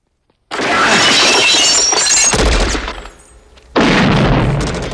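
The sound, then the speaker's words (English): Glass panes shatter loudly as a man crashes through them during a shotgun gunfight. A long, crashing burst of breaking glass fades, then a second loud burst follows. “Running out of bullets for his assault rifle, John switches to a shotgun and crashes through the panes, bare-chested.”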